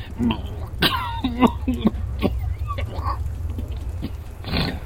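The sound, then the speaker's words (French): A man with a cold coughs repeatedly in a coal-mining setting, giving many rough, hacking bursts with some throat clearing in an uneven rhythm, steady low rumble beneath. “Et ça vous fait tousser aussi?”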